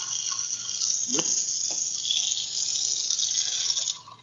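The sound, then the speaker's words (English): Water running into a sink: a steady, bright hissing rush that continues evenly for about four seconds, then cuts off abruptly. “No, that was me. I ran the sink.”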